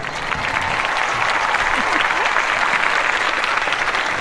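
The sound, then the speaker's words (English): Applause from a studio audience in a small studio, a dense, even patter of clapping that holds at a constant level throughout without a break. “I had no idea so many people were in that little studio. Well, you know, we have to let them clap every now and then because otherwise they get unruly.”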